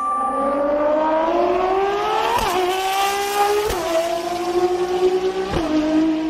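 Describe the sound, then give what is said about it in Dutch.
A Ferrari sports car engine revs hard and loud on its own, its pitch climbing steadily and dropping sharply at each of three gear changes as it races past. “Dat is het geluid van een voorbijrazende Ferrari.”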